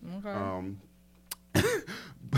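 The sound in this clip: Someone clears their throat with something stuck in it. After a stretch of talk comes a short, rough, harsh burst, followed by more voice.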